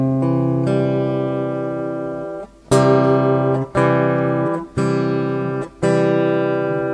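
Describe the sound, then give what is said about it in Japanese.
A guitar plays a C major chord, first ringing out with a long sustain, then strummed four more times at a steady, roughly one-second pace, each chord bright and full. “じゃあギター使おうかな。ギターで、手元でできるので。それではですね、ドミソの1をやっていきますけど、ギターで音を出すと、”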